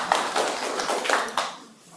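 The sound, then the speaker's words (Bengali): Hand clapping for a correct quiz answer: a few sharp, crisp claps in a fairly even rhythm over about a second and a half, then fading away. “হাততালি রানা।”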